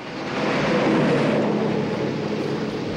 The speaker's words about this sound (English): The rain continues to pelt down on the stationary vehicle. A lorry drives past.